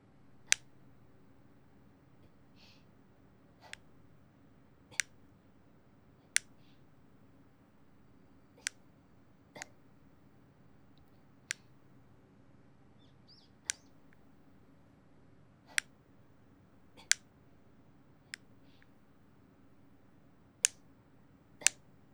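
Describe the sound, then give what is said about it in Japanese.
Fingernails being cut with nail clippers give many crisp, sharp snaps. The single clicks come a second or two apart, in a loose regular pattern over a quiet background with no talk. “爪を切るパチンパチンっていう”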